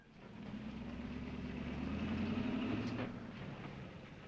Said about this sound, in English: The guards open the gates and the car glides in, then stops.